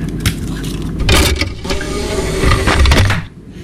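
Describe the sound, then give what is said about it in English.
A CD is loaded into a computer disc drive: a few clicks and clunks over a rough, motor-like mechanical whir that continues fairly loudly throughout. “I managed to find a free CD that I got with the Sun. So I'm just putting that into the drive.”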